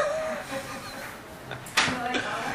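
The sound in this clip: A door is pushed shut, giving a single sharp knock partway through while a person keeps talking steadily over it.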